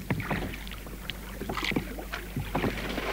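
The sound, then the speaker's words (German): Oars splash and dip as a small rowboat travels down the James River at night, making irregular watery strokes and knocks over a steady wash of water and wind. “Noch in der gleichen Nacht fuhren wir in einem kleinen Boot den James River hinunter”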